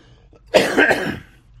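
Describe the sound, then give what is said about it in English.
A single cough with a throat-clearing rasp from a person recovering from a lingering cough, one moderately loud burst heard alone. “And I'm still coughing a little bit, but it's a whole lot less.”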